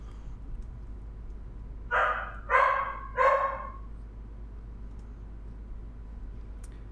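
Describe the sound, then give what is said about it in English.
Three barks from an anxious young female dog come in quick succession, fairly faint over a low steady hum, followed by quiet. “I'll see if I can calm her down. Good luck. Dogs.”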